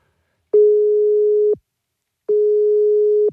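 Ringing tone of an outgoing telephone call: two steady, single-pitched tones about a second long each, separated by a short silence, with no voices.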